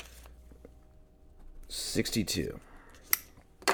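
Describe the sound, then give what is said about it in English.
A pen scratches quickly on paper as someone writes down a note: a few short, faint scratching strokes, then a sharp click and a last soft scrape. “Let me write that down so I don't forget.”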